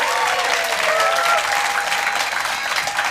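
Studio audience applause welcoming a guest onstage at a comedy interview show, a loud, steady burst of clapping from many hands that holds evenly throughout.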